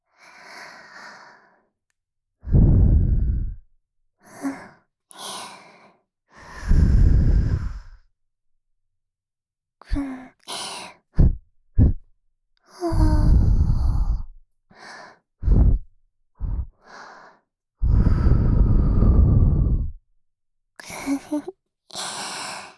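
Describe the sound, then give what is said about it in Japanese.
Gentle blowing into the ear after ear cleaning with an ear pick: several long, soft, airy puffs of breath, separated by quieter breathy whispers and short gaps. “それじゃあ、ふうふうするから、くすぐったくても我慢しててね。”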